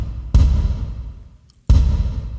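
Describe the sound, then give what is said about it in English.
Two kick drum hits treated with a big reverb, each a deep, booming thud whose long tail rings out and slowly fades, separated by a short near-silent gap. “But if I put a big reverb on the kick drum, it sounds like this.”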